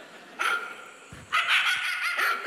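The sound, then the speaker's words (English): A dog barking and yipping: a short, sharp bark, a brief pause, then a longer run of loud barks and yips. “Play this real quick. That's my dog. Did you hear it?”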